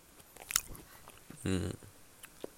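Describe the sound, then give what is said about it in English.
Faint bites and chewing of papaya with peanut butter: a few crisp clicks and crunches early on, softer mouth sounds later, and a brief voiced murmur midway, all quiet. “So these are a few bites of peanut papaya. Sound is quite normal, quite average.”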